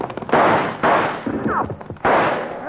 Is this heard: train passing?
no

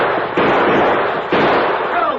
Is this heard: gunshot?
yes

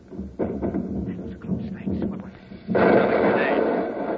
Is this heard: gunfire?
yes

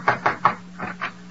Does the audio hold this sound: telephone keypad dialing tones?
no

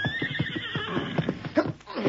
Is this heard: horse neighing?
yes

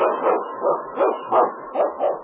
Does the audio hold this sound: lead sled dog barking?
yes

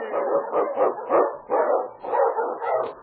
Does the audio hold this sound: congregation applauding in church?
no

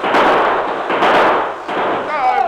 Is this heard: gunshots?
yes

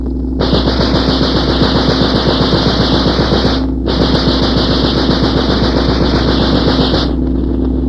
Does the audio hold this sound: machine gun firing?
yes

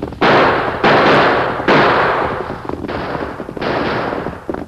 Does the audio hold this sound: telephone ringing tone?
no

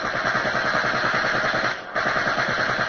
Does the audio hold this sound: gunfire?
yes

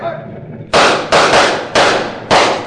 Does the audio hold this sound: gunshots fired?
yes

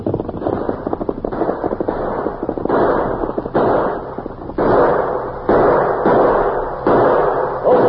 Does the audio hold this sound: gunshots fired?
yes

